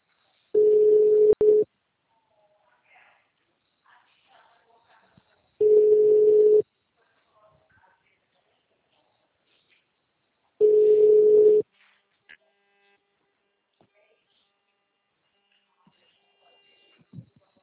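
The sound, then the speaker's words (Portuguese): Telephone ringback tone while a call is placed: three steady, low-pitched tones of about one second each, separated by long silent gaps, with no voices. “Chamando.”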